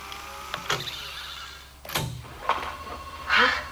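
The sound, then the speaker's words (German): Tape recorder being rewound and played back, with a few sharp mechanical clicks and a short whirring, chirping burst of motor noise at the end. “Naja, also ich fahre noch mal zurück und lasse es noch mal ablaufen.”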